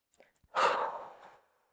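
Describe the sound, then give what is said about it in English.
A single slow, breathy exhale after a deep breath, taken as a calming exercise: faint and soft, with a few tiny clicks just before the long airy sigh trails off. “You can also take 10 deep breaths, focusing particularly on the out breath.”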